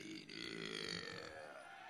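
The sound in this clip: A single, unbroken warm-up burp from a burping competition contestant. It rasps and rumbles at a steady level for about two seconds.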